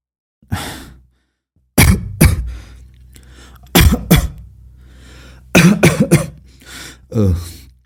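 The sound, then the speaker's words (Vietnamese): Harsh coughing fit after a first drag on a cigarette by someone who does not smoke: several loud, rough coughs in clusters separated by short pauses, with no talk. “vừa hút một hơi liền ho sặc sụa”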